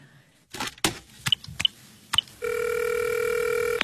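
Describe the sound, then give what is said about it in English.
A telephone is handled to place a call. Several sharp clicks and knocks come first, then a steady, continuous tone holds to the end. “Oh, yes, I know. I'll call her. Oh, she hasn't got a phone with her. Ah, but what about Miss Cholee?”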